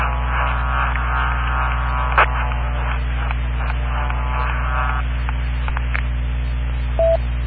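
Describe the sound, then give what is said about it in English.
Jammer interference on a radio frequency: a steady low electronic hum and buzz runs throughout, broken by a couple of short, sharp beeping tone bursts. “We have a jammer on the frequency. I don't know why they get fun out of doing that”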